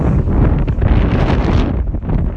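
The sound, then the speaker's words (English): Strong wind blows against the microphone on a street, producing a loud, continuous rumbling roar with gusty buffeting that dips briefly before surging again. “sheltering me from the wind. It's just getting quite strong.”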